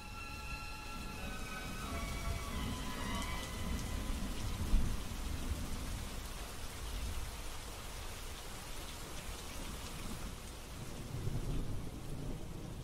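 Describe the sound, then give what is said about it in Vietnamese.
Heavy rain pours down in a forest with thunder, a steady dense hiss of rainfall over a low, rolling rumble that swells and fades, fairly faint throughout. “Xen lẫn trong tiếng mưa nặng nề đó là tiếng rít gào ai oán, làm cho cả khu rừng trở nên ma quái.”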